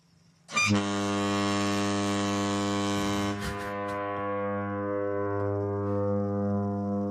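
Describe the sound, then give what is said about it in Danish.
A large American train horn sounds one loud, sustained, chord-like blast. It starts abruptly after a brief quiet moment and holds steady and unbroken for about six seconds. “Er det et færgehorn? Der står det et toghorn”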